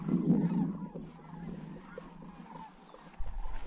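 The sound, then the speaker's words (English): Rocky Mountain greater sandhill cranes calling at a spring valley wetland where the flocks gather: loud, rolling, rattling calls that are strongest at the start, then a steady lower chorus, with a sudden low rumble near the end. “That noise is pretty cool. More than 20,000 of this subpopulation of Rocky Mountain Greater Sandhill Cranes come to the valley each spring to rest along their way to their summer home in the northern Rockies.”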